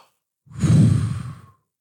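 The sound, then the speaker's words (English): A voice imitates a deep, forceful breath, one loud, heavy, low exhale of about a second that stands alone, with silence before and after. “And then Trump inhaled and exhaled. He went,”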